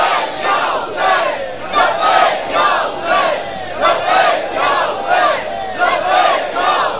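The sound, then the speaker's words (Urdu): A large crowd chants the religious slogan Labbaik ya Hussain in loud, rhythmic bursts. Many voices rise and fall together in repeated phrases at a steady pace throughout. “وہ صرف ایک ہی نعرہ ہے، وہ ایک ہی نعرے سے ہم نے اپنے آپ کو زندہ رکھا ہوا ہے کہ لبیک یا حسین۔”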